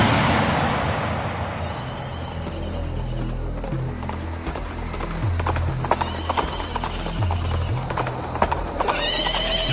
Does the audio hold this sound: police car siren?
no

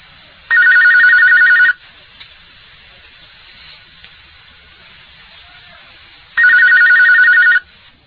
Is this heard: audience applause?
no

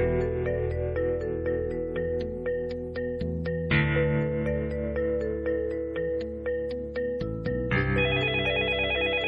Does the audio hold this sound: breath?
no

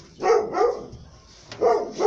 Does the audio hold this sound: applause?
no

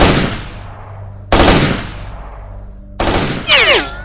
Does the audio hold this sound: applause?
no

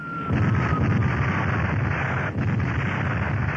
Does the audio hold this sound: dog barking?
no

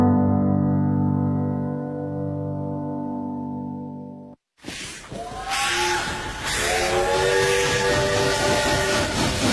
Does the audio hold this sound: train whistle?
yes

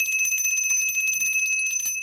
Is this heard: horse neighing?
no

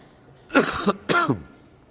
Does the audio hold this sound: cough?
yes

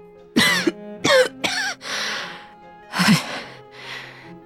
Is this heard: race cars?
no

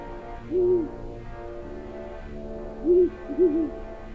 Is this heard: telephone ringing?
no

